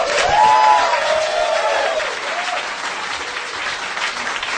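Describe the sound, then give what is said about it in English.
Audience applause greets a comedian taking the stage at a New York City show. The clapping is loud, dense and sustained throughout, easing slightly in the second half. “Thank you for that big live album style applause.”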